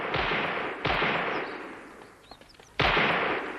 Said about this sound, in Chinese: 山脚下，中央警卫分队在进行实弹射击。